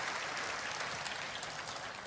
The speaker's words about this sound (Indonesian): Tepuk tangan yang paling meriah buat Yesus yang luar biasa.